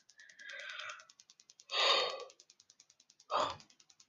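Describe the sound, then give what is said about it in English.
A person yawning: drawn-out, breathy airy exhalations, the loudest in the middle, over a faint, rapid, regular pulsing noise in the background. “I'll keep on yawning.”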